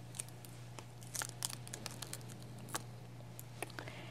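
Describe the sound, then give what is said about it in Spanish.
Faint crackling and tearing as a stuck item is peeled off a surface, a few sharp crinkly bursts scattered over a steady low electrical hum. “Lo voy a despegar de aquí.”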